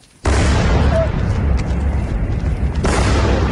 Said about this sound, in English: This was Kyiv last night under another Russian attack.